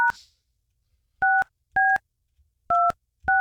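Telephone keypad dialing with DTMF tones: five steady dual-pitch beeps, each about a quarter second long and irregularly spaced with silence between, the first clipped short at the start.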